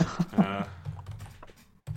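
Typing on a computer keyboard: a run of quick, light key clicks, uneven in rhythm, in a quiet setting.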